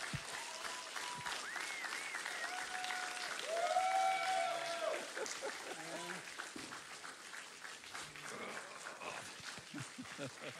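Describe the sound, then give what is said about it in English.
A church audience applauds to welcome a preacher, clapping steadily throughout with a swell in the middle. Voices can be heard over the applause. “I would love it this morning if you would stand and put your hands together. Welcome and honor Louis as he comes to preach today. Come on, give it up.”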